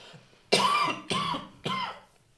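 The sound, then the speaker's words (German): Three harsh, evenly spaced coughs from someone who has choked on something. Each is a loud burst that tails off, heard alone. “Entschuldigung, ich habe mich verschluckt. Man kennt das, man versucht es dann zu unterdrücken und dann wird es nur schlimmer.”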